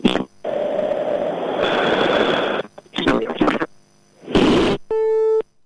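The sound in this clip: A telephone busy tone sounds after a call is cut off. One steady, clean beep comes at the end, after bursts of harsh line noise and crackle.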